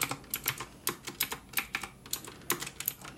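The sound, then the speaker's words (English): Rapid keystrokes clatter on a computer keyboard as inventory is entered in a retro video game store, with many quick, crisp clicks in an uneven rhythm and no voices. “Okay, so let's go ahead and type this in.”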